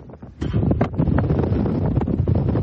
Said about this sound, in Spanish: Perdón por el sonido de esta inmensa ráfaga de viento que hemos estado en este momento. Estamos en pleno desierto aquí en El Paso.